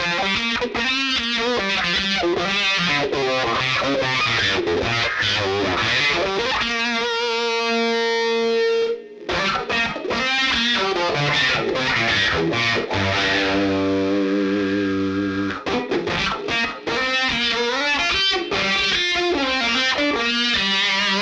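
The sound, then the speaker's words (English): Electric guitar on the bridge pickup, played through an RMC Picture Wah into a Speebtone Jerk-U-Later fuzz pedal. Thick, distorted riffs and sustained notes carry sweeping, vocal-like filter shifts throughout, with no talking. “I'm using the Teiss RMC picture wah in front of the Speebtone harmonic jerculator. The RMC picture wah has special circuitry that makes it friendly with fuzz pedals.”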